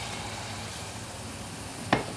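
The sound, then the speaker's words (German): A soft, steady sizzle rises from onions sweated in butter with flour as a house Riesling is poured in to deglaze, with one brief sharp knock near the end. “Zwiebeln in Butter anschwitzen, Mehl dazu, rühren, dann kommt der hauseigene Riesling. Ein bisschen ablöschen, so.”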